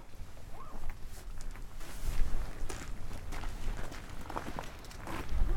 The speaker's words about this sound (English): So just we're walking down to the workshop